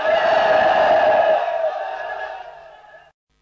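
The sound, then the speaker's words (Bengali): A large political rally crowd gives a loud, sustained collective chant, one drawn-out cry held strongly for about a second and a half. It then tapers gradually and cuts off abruptly after about three seconds. “আপনারা বেশি slogan দিলে আমি তো কথা বলতে পারবো না।”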